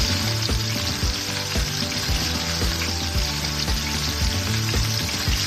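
Chicken frying in a pan of olive oil gives a loud, continuous sizzle with many small crackling pops scattered through it and faint scraping from stirring.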